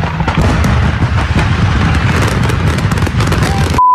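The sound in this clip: A loud, dense barrage of fireworks and explosions near a burning house, heard from about two blocks away: rapid crackles and booms pile into a continuous roar, then cut off abruptly near the end.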